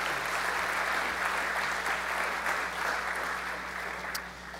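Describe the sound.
Audience applause welcomes two speakers onto a stage, a steady, dense clapping that holds throughout and eases slightly toward the end.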